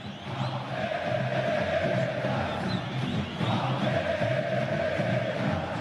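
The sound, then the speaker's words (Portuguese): Palmeiras fans fill a stadium before the match, producing a dense, sustained crowd roar with steady chanting tones running beneath it from start to finish. “Aumentou o volume, aumentou também a presença de público aqui no estádio e agora começou a música.”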